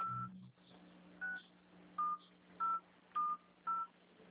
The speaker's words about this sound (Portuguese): Agora, digite, por favor, a sua senha. Aquela de 6 números que você usa para acessar o Internet Bank e os aplicativos. Pode digitar.